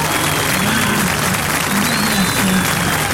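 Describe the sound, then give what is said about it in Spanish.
Applause from a large crowd at an anniversary commemoration, a dense, loud, continuous clatter of clapping that stays steady throughout, with scattered voices mixed in. “Aplausos de toda esta multitud.”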